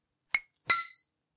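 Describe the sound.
Glasses of Club-Mate clinking in a toast, two separate clinks: a short, sharp tap, then a louder one that rings on briefly, both alone in silence.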